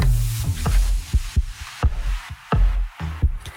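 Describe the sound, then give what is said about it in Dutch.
A human heartbeat thumps in a steady lub-dub rhythm: a few pairs of deep, soft low thuds repeating at an even pace, with no voices. “Dit is de hartslag”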